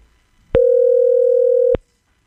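A telephone tone sounds after a call line drops: one steady, mid-pitched hum that starts abruptly, holds evenly for just over a second, then cuts off, with nothing else around it.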